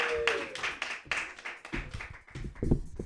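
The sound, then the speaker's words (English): Sparse, scattered clapping from a small audience at a stand-up comedy night, with separate hand claps spread irregularly across the few seconds rather than a full ovation. “Put your hands together for Sarah Guth.”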